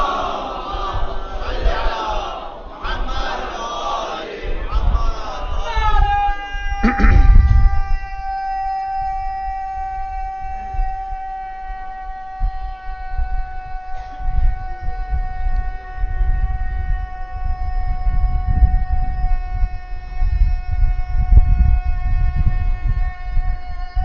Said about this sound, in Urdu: اتنا طویل نعرہ ہے کہ نیند آ گئی مجھے تو۔